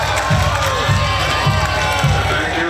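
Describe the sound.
A crowd cheers as the 48th World Heritage Committee session inscribes the Phra Borommathat Chedi of Nakhon Si Thammarat as a new World Heritage site, a loud, steady swell of voices with regular low thumps underneath.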